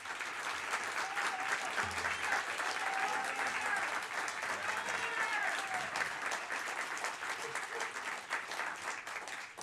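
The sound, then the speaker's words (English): Sustained audience applause welcomes two candidates at the October 2018 Cuyahoga County Executive debate. The clapping stays steady and dense for nearly ten seconds, fairly soft overall, with a few brief voices faintly underneath. “we ask that you all hold your applause, except for two occasions, at the end when we close this debate, and right now as we welcome our two candidates, Armond Budish and Peter Corrigan.”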